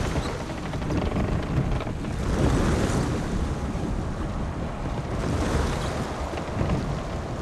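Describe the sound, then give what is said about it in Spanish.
A barge approaches the coast by sea, heard as a steady wash of surging water and wind that swells twice in broad, rolling waves. “Una barcaza se acerca a la costa.”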